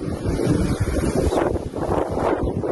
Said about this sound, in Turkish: Kısa süreli dolunun etkili olduğu Menemen'de hortum oluştu.